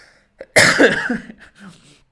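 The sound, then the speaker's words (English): A person's combined sneeze and cough: a brief sharp intake, then one loud explosive burst that trails off into a softer, breathy tail. “So I'm going to sneeze right now and I'll cough. I don't know, it was a sneeze cough.”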